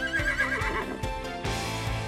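A horse neighing: one drawn-out whinny with a quavering, wavering high pitch that trails off into lower breathy snorts.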